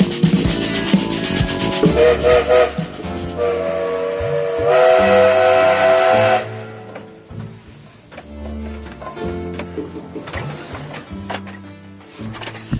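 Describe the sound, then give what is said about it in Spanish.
A steam train departs with a loud steam whistle and hissing steam. The dense whistle and hiss build over several seconds, then ease to a quieter, steadier level. “Como todos los días, el tren se pone lentamente en movimiento.”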